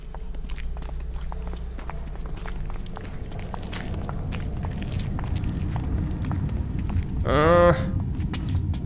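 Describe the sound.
Footsteps walking through a palace past dead guards into the next room, a steady run of many soft, even steps over a low rumbling background, with a brief loud warbling sound near the end.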